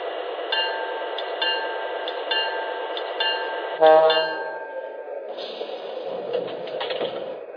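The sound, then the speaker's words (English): A train arriving on track 1 from Tacoma at the Kent stop: a steady high tonal whine runs through regular clicking, with a louder thump near the middle and a rougher, noisier stretch afterward. “Now arriving from Tacoma on track 1, the Milwaukee Ski Bowl.”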